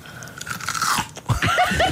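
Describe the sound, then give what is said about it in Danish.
Crisp crunching of a hard raw carrot being bitten and chewed, a few loud brittle cracks followed by wet, grinding chewing, with no talking. “Det lyder værre, gulerod, end når altså jeg spiser en hård gulerod.”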